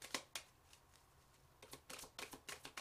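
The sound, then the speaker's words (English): Tarot cards being shuffled make quiet, papery riffling bursts: a few separate flicks, then a quicker run of crisp snaps toward the end. “Sorry if these cards are loud.”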